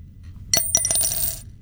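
A single quarter drops into a jar, striking with a bright metallic clink, then rattling through two quick bounces before a short ringing tail fades.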